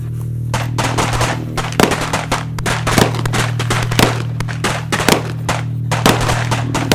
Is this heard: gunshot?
yes